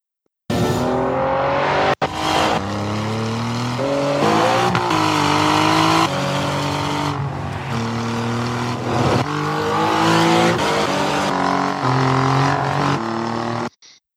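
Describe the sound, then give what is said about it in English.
An Alfa Romeo Giulia with its Ferrari-built V6 engine revving: a loud, continuous engine roar whose pitch repeatedly climbs and drops, heard alone without voices. “who makes a good sounding V6? Who? Is Alfa Romeo and their Giulia.”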